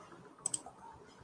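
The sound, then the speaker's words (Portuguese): Two quick, faint computer mouse clicks land close together, with no talk around them. “é só clicar aqui em indicar livro”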